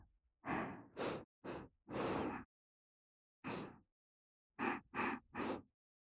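Deep breathing in through the nose: a series of soft, airy breaths heard alone, with longer draws at first and a cluster of quick sniffing pulses near the end.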